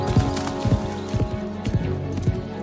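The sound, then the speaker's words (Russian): Hoofbeats of a horse galloping through a forest: heavy, regular thuds about twice a second, each with a short clattering edge, over a steady tonal background. “Она мчится по лесу галопом”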